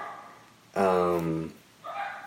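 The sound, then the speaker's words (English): Dogs bark: a loud, drawn-out, tonal bark or howl, followed after a short pause by a softer, shorter one. “Of course, our dogs start barking. Sorry, y'all. Our dogs are barking, but keep going.”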